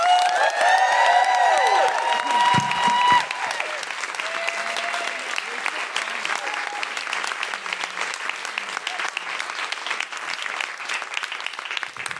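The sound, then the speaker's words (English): An audience claps and cheers to welcome a comedian guest. Loud whoops and shouts ride over the applause for the first few seconds, then steady clapping continues alone to the end. “Put your hands together and make excited noises of feminist delight for Sindhu Vee.”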